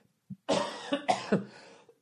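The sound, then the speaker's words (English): A person recovering from a lingering cough, with an irritated throat, lets out a short bout of several harsh, breathy coughs in quick succession, preceded by a faint catch in the throat, with no talking. “I'm getting over this cough.”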